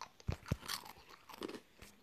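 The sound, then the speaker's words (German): Someone eats crunchy food with a few crisp bites followed by softer chewing. The sounds are faint and uneven, with brief crunches spread through the short stretch. “Ach, erstmal was essen.”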